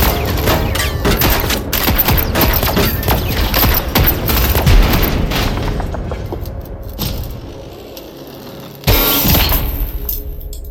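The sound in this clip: Gunfire aimed at a hostile robot: dense, rapid shots pour out in a loud sustained barrage, thin out briefly, then a sharp, heavy burst hits near the end.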